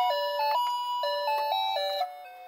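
An electronic chime melody plays from a pressed button, a sequence of clean, stepped tones, steady in volume and fairly quiet, with no talking.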